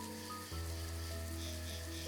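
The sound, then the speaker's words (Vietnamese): Heavy, unrelenting rain pours in a dense, continuous hiss that carries through the whole clip, with low sustained tones held underneath. “Trời vẫn đang trắng xóa như thế kia, khả năng mưa không thể ngớt được trong hôm nay rồi.”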